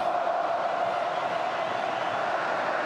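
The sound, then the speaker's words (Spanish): Steady crowd roar from spectators at Estadio Azteca during a football match involving Mexico, a dense, continuous wash of voices with no distinct peaks. “El público hace lo suyo en el Estadio Azteca.”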